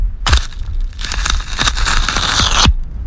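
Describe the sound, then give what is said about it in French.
Velcro strips are ripped apart in loud, crackling tearing bursts. Several rips follow one another closely over about three seconds. “Les scratchs.”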